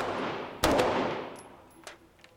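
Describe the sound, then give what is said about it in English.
Gunfire while out shooting, blasting off a few magazines: one loud, sharp report with a long decaying tail, followed by a few fainter, scattered shots. “It's been a while, man, since I've been out shooting. Blasting off a few mags”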